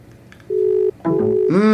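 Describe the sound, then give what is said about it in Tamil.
Telephone line tones as an outgoing call is placed and connects: a steady, loud electronic tone holds for about half a second, then after a brief gap a second tone sounds with layered pitches, ending in a brighter buzzing tone. “அழைப்பு செல்கின்றது அவரிடம்.”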